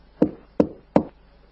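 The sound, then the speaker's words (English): Three firm, evenly spaced knocks on a door, each a sharp hollow thud with a brief decay, heard alone without voices. “So he knocked at the door.”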